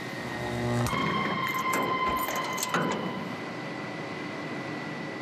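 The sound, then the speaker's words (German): Mechanical churning from a rotating drum whose large knives chop sugar beets inside a closed steel vessel. A steady broad rumble carries a thin whine, louder over the first couple of seconds and then holding even and unbroken to the end. “Hier in dieser Trommel kreisen große Messer und schneiden die Rüben klein.”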